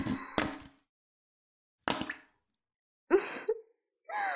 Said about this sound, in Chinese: 呼吸的这么大声，好不好闻啊？